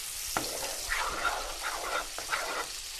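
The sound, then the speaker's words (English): Grits being stirred in a pot at breakfast in a home kitchen: scraping strokes against the pot with a soft sizzling, bubbling texture, a few sharper knocks among them. No voices. “Got to stir the grits so they don't stick.”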